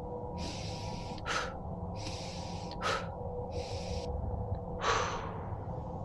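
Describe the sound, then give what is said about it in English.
Three deep, fast breaths: each is a long hissing inhale through the nose followed by a short, forceful puff out through the mouth, over a steady low background hum. “Now take three deep cleansing fast breaths, in through your nose and out through your mouth.”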